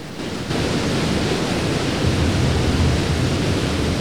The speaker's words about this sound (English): A roaring waterfall somewhere deep in the jungle.